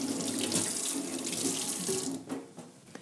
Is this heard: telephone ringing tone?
no